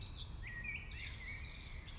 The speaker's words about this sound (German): ganz viele Mücken, aber auch ganz viele Vögel, die ihren Gesang in den Abend hinein vortragen.